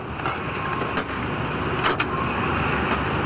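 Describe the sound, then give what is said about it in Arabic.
Buzzing motors of a halal food cart on a New York street, a steady broad hum with faint rattles and a few soft knocks, continuous and even throughout. “لما تسمعوا أزيز المواتير تعرفوا اقتراب عربية الأكل.”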